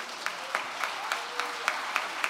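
A church audience applauds its healthcare ministry with fairly quiet, steady clapping. Sharper claps stand out at regular, even intervals throughout.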